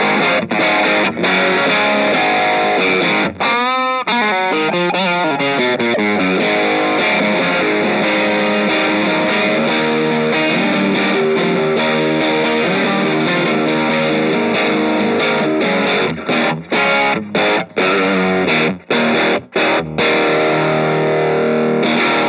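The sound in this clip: Electric guitar played through the dirty channel of an Orange Crush 20RT amplifier, giving a loud, thick, distorted tone with sustained chords, then choppy stops and restarts near the end.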